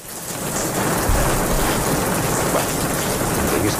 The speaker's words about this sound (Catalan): Podem fer que plogui una mica, sisplau?